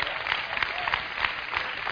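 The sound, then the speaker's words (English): Audience applause as a crowd claps on cue, a dense, steady patter of many hands lasting about two seconds at even, moderate loudness without any voices on top. “Give him a hand. That's powerful, isn't it? You should clap right there.”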